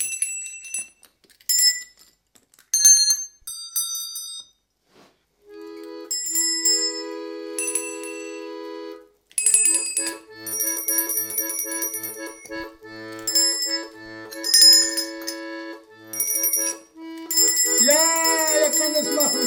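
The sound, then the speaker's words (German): Bell tones ring in a song about bells: bright, high chiming strikes, then longer sustained ringing notes over a soft lower pattern, growing denser and louder toward the end. “Das Lied hat was mit Glocken zu tun.”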